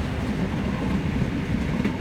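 A train rolls along its rails with a steady, unbroken low rumble and a soft rattling clatter, heard alone without voices.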